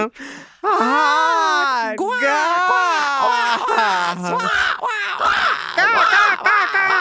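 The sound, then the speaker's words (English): A person imitates bird calls with their voice: a run of loud, warbling, squawking cries with sliding pitch, some long and drawn out, others broken into shorter bursts toward the end. “my bird calls attracted more birds.”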